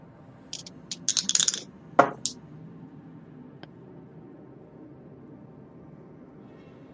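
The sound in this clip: Dice are rolled for a luck roll in a tabletop horror role-playing game, giving a quick cluster of bright clicking rattles over about two seconds, then a couple of faint ticks in near silence.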